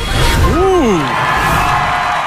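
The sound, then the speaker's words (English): Crowd cheering at an arena event, a loud, dense roar with one voice whooping upward and then falling early on. “the crowd is really excited, if you could tell. The crowd liked it.”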